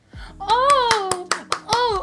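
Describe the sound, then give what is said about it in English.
A few sharp hand claps ring out in quick succession, mixed with an excited, high-pitched cartoon girl's voice. “Amy beams with excitement and applause.”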